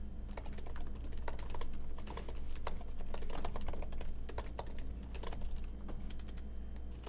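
Someone types notes on a computer keyboard, producing many quick, light keystroke clicks in irregular bursts over a steady low hum, quiet throughout.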